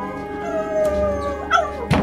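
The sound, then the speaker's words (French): A dog howls mournfully in front of a door in a sustained, wavering tone that holds for about a second. Two dull thuds follow close together near the end. “Mon chien s'est mis à hurler à la mort devant la porte de Monsieur Bergamotte.”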